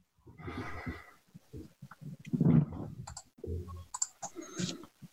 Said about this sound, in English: I didn't click out. Let me try that one more time.